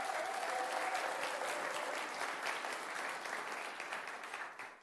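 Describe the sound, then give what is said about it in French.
A church audience applauding during a French-language service, thick continuous clapping that stays strong and full, then eases slightly toward the end. “Est-ce qu'on peut s'acclamer pour ça, s'il vous plaît?”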